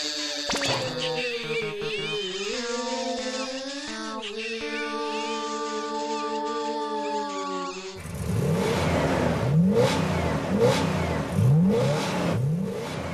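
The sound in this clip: A car engine revs as the pedal is pressed again and again, its steady whine climbing and dipping in pitch, then turning rougher and noisier with several rising surges.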